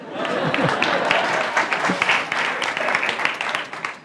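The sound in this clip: Audience applause, with dense, steady clapping throughout and voices mixed in.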